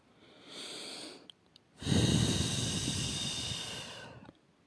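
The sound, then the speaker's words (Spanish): Slow breathing in and out: a softer airy breath, a short pause, then a longer, louder, rushing exhale that gradually fades. “Y hay que respirar y exhalar.”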